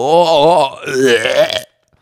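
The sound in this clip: A voice imitates a fart with a drawn-out, buzzy, wavering vocal sound lasting over a second before cutting off.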